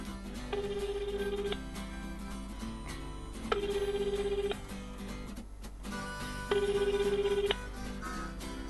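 A telephone ringback tone on an unanswered outgoing call: three identical steady electronic rings, each about one second long, separated by roughly two-second gaps, moderately loud over a faint background.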